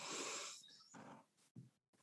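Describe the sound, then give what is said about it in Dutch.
Faint, airy breathing, a slow deep breath in and out, during a calm guided breathing check-in. It comes as a few soft bursts separated by short pauses, with no talk. “Dus wat je mag is samen gewoon eh, diep in en uit ademen. Dus adem in.”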